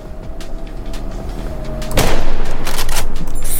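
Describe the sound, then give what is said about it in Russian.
Sniper rifle gunfire in a video game: a single loud, sharp blast lands about midway, and a sustained roar of noise continues after it. “Какой из меня снайпер? Ну хоть одного. Давай, голову покажи.”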